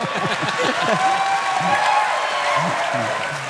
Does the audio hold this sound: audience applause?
yes